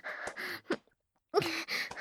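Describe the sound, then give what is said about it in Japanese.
Excited, heavy panting breaths: a run of breathy huffs and gasps, a brief pause, then more ragged exhalations. The breathing is fairly loud, with no words spoken. “ふうふう、はぁはぁって興奮した息遣い、とっても情けないです。”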